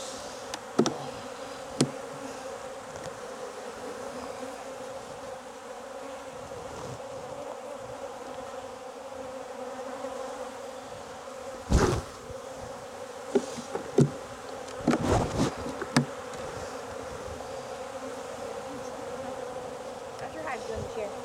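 Honeybees buzzing around healthy beehives in an apiary: a continuous droning hum with bees passing close by, broken by a few sharp knocks and clicks.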